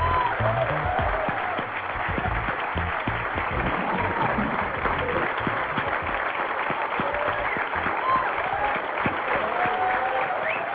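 An audience applauds to welcome two music artists onstage at a museum event: loud, dense clapping from many hands, sustained evenly for about ten seconds with a brief dip early on.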